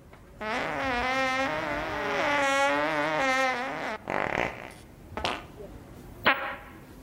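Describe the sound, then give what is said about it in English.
A fart in a small room: a long, wavering buzz that lasts about three and a half seconds, followed by a few short, fainter bursts of noise. “Was that a fart? I don't know. I can taste it. On my tongue. Okay, I'll be honest with you. I did fart.”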